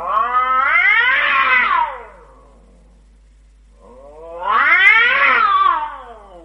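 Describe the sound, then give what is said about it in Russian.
A cat screeches after its tail is stepped on: two long, harmonic yowls, each lasting about two seconds and arching up then down in pitch, separated by a short silence. “И тут сосед наступил кошке на хвост.”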